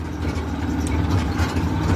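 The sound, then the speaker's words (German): A motorcycle tricycle with an attached metal cabin moves slowly along narrow gravel roads, its engine giving a steady, low rumble throughout. “Das rote Tricycle kommt nur langsam voran. Das Motorrad mit angehängtem Metallgehäuse holpert über enge Schotterwege.”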